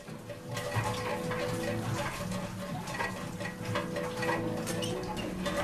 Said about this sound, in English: Rain is still beating down outside, pattering onto the end of the rusty metal pipe leading to the panic room.